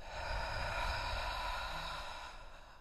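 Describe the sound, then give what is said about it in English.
One slow, deep breath during a guided breathing exercise, drawn in through the nose and let out through the mouth, soft and steady with no other sound. “We're going to start by taking a deep inhale through our nose. Full exhale out of our mouth.”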